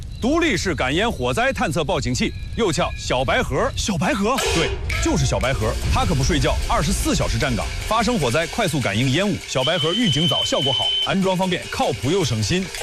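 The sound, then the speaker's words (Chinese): A standalone smoke-sensing fire detector alarm sounds as a high, steady electronic tone beneath continuous, lively talk from several voices in a dramatized fire scene. “独立式感烟火灾探测报警器，又叫小白盒。 小白盒， 对，就是小白盒。它可不睡觉，24小时站岗。发生火灾，快速感应烟雾。”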